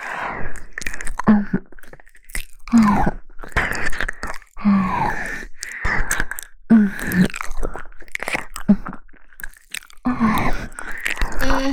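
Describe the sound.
Loud, wet chewing and crunching as someone eats raw snake, coming in many irregular bursts with short groaning vocal noises between bites.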